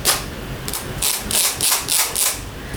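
Scraping of a rubber spatula across a broken basket: a series of dry, rattling strokes repeated at an even pace, each a bright, crackly burst of clicks, with no voices.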